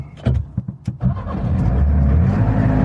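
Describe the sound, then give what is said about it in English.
A Trabant car engine, choke eased out, cranks in a few quick bursts, then catches and settles into a steady, rough, buzzing low idle. “And there's a choke down here, so I'm going to sort of ease the choke out a little bit and see if we can crank it going.”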